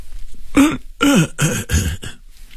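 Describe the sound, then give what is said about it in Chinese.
An elderly man coughing and clearing his throat in a few loud, harsh, voiced bursts with a rough, throaty tone, packed close together and heard on their own. “张栓柱咳了一声”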